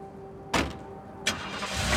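A car engine starting in a courtyard: two sharp bursts, then a low rumble that builds steadily louder toward the end.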